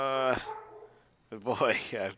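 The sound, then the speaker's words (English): A dog barks in two bursts: a drawn-out tonal bark that fades, then after a short pause a cluster of quicker, wavering barks and yips. “My dog's barking.”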